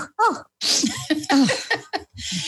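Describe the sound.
A sneeze bursts out as a sharp, breathy blast between short stretches of talk.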